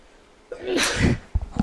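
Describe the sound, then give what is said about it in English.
A person sneezes once, a sharp breathy burst lasting about half a second, followed by a few brief, faint low sounds. “excuse me, I got to sneeze.”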